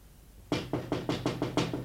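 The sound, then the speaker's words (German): Knocking on a window: a rapid, evenly spaced series of about eight sharp knocks following a moment of near silence. “Es klopft ans Fenster. Es ist wer draußen.”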